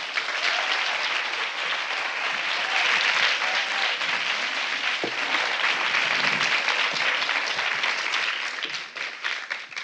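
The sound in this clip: Audience applause welcomes a historian onstage, warm, sustained clapping that holds steady at full strength and thins out briefly at the very end.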